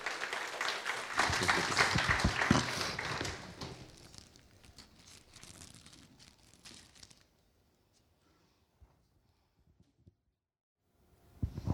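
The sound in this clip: An audience claps to welcome a speaker at a Summer of Good Works celebration: a dense, loud patter of many hands for a few seconds that thins and fades, leaving near silence at the end.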